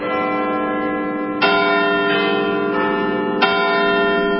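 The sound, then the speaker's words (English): Doorbell chimes: rich, sustained bell tones ringing continuously, with two distinct new strikes sounding over the lingering resonance. “This is my parents' doorbell. Yeah. Not even joking. That's where it came from. Came from those doorbell chimes.”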